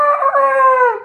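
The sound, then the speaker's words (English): A rooster crows once: a bright, harmonic call that holds steady and then drops in pitch as it fades, alone with no other sounds. “as long as it's close enough for the chicken to pick up the sound of that rooster.”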